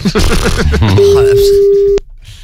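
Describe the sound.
A telephone ringback tone on a call: one steady, mid-pitched ring lasting about a second, heard under talking voices. A click cuts it off and near-silence follows.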